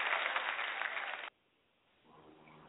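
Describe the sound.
A few hosts clap their hands together in a dense burst of clapping that lasts about a second and stops abruptly, leaving near silence.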